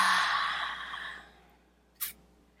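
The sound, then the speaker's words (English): A long, airy deep breath drawn in, loud at first and then gradually fading, followed after a short pause by one brief, sharp puff of breath. “Big deep breath in.”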